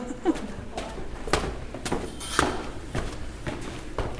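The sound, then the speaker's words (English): Footsteps of a person climbing a couple of flights of stairs in a hospital, many steady footfalls in an even rhythm at moderate volume. “In fact, I think I'll take you up a couple of flights of stairs and you can hear me huffing and puffing, I'm ashamed to say.”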